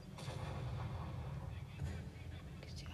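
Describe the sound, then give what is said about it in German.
Artillery fires in a tank battle video game, heard as a steady low, rumbling roar with dull booming bursts that never fully let up. “Die Artillerie kämpft da auch noch irgendwo rum.”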